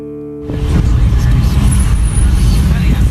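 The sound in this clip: A car driving through the streets of Laayoune: a loud, steady road rumble with low engine and tyre noise that starts abruptly after a brief tone and carries on without a break.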